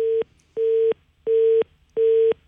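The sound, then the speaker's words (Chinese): A telephone busy tone sounding after a call was hung up: four evenly spaced beeps of a single steady mid-pitched tone, each lasting about a third of a second, heard alone. “他把电话给挂了”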